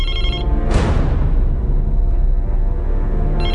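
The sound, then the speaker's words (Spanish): A mobile phone ringtone goes off suddenly, opening with a loud, sharp burst and carrying on as steady, sustained ringing tones to the end. “fue ahí cuando inesperadamente sonó su celular”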